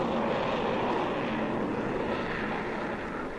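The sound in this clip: Airplane flying low overhead, a broad, steady engine roar that stays loud throughout and eases only slightly at the very end.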